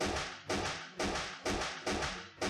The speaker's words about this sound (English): as several gunshots go off